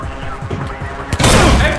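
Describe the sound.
A sudden, loud burst of gunfire during an armed raid, erupting near the end after a stretch of lower rumbling noise and continuing to the close.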